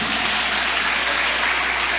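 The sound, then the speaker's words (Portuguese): An audience claps hands during a worship hymn, a dense, even wash of applause that holds at a steady loudness from start to finish. “Pode bater palmas e dar glória.”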